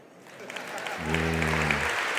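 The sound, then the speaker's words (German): Audience clapping at a live show, a steady wash of hand claps that swells slightly louder partway through, with a low droning tone sounding briefly in the middle. “Auch da kann man klatschen.”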